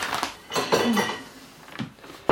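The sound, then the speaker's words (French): Crockery clinking as a small plate is handled to serve pâté, a few light clatters and scrapes with a sharper clack at the very end. “il me faut une petite assiette pour mettre le pâté.”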